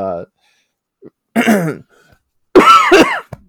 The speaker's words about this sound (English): Sorry, choked on my own spit.